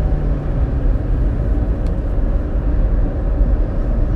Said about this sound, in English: That is a very satisfying sound. What? Gassing it? Yeah, gassing it. I think as long as I can gas it in a car, I'm satisfied.